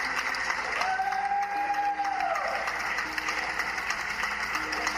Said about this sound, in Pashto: خلک هر ماښام د خپلو کورونو په پرانیستو کړکیو، بالکنیو او بالاخانو کې دریږي او په داسې حال کې سندرې وایي، د ستاینې نارې وهي او چکچکې کوي